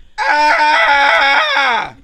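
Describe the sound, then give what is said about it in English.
A person screams loudly at a college dorm: one sustained, high, harmonic yell lasting nearly two seconds, its pitch sliding downward as it fades. “Scream as loud as you can when you get here, please. Just scream.”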